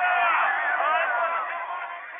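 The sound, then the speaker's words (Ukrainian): Crowd of nationalist movement supporters chanting at a street rally. Massed voices form a sustained, loud roar that eases slightly toward the end. “Прихильники націоналістичного руху скандували.”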